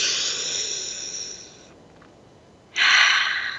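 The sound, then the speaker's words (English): People breathe deeply together during a guided calming exercise: a long, airy inhale fades into a quiet pause, then a louder, breathy rush of air follows. “I want to invite you to take a breath with us as we connect in.”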